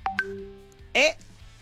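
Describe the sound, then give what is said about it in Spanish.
An incoming telephone call rings as a couple of short electronic beeps, a held tone, then a brief warbling trill, fairly faint and clipped. “Ah, es que está entrando... una llamada telefónica.”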